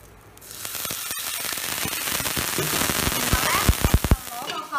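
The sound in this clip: Loud sizzling and crackling as a little water hits a hot pan with a heart-shaped egg frying. It starts quiet, then swells into a dense hiss with many sharp pops.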